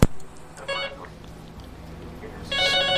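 A telephone rings with an incoming call to a call-in line: two short bursts of bright, high ringing separated by a gap, over a low, steady background hum.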